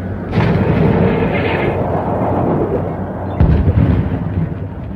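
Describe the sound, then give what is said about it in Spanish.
Artillery guns firing on command in the Watchman mountains: two deep, heavy booms, each followed by a long rolling rumble, loud and with no voices. “Alcance 32 metros. 32 metros, listo. Proyección 39 grados, carguen. 39 grados, señor, listo. ¡Fuego!”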